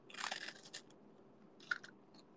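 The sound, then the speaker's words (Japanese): Crisp crunching comes from someone biting and chewing a Hololive Man Choco chocolate wafer, in a quick cluster of crunches at the start and a shorter burst near the end, faint and with no talk. “これ、ホロライブマンチョコのエハース食べ終わったら、ドロンします。”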